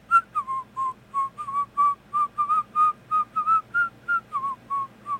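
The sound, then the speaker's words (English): Whistling by a person imitating a slowly rising and falling whistle from a music track in a swingy rhythm: many short, clear notes in a steady pulse, some bending slightly in pitch, with no talk. “try and imitate the track with that part that kind of sounds like a whistle in the background that just slowly goes like up and down”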